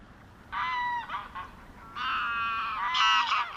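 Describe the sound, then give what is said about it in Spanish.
Geese honk in the wetlands of Doñana National Park in southern Spain, giving several loud bursts of nasal, reedy calls over a soft low background, with short pauses between the groups. “Hemos dado un salto, hemos viajado ahora hacia el sur y estamos escuchando los sonidos del Parque Nacional de Doñana.”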